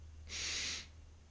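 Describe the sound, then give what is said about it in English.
A single quick inhale through the nose, a short breathy hiss that swells and stops after about half a second. “You can do a quick inhale through the nose, followed by the long, sustained breath.”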